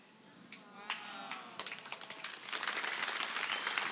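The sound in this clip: Audience applause in a church, faint overall. A few scattered claps build quickly into dense, steady clapping that grows fuller toward the end.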